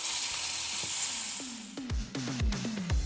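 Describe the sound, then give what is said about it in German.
Food sizzling in a pan as it is quickly fried, a steady bright hiss throughout, joined in the second half by several sharp clinks or scrapes from stirring. “Und ganz schnell muss es braten werden, nicht allzu lange.”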